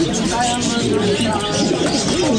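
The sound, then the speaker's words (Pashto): Pigeons coo on a bird-selling street in Kabul, their soft, repeated calls running under a man talking. “د کافروشی کوڅه په کابل کې د مرغانو د پیرو پلور سیب دا کوڅه اوس د پخا په چیر له غنې ګونی ډکنه ده.”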